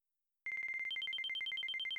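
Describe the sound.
A phone rings with an incoming call. After a brief silence, a bright electronic trill of rapid short beeps starts, then soon alternates between two pitches in a steady, unbroken pattern.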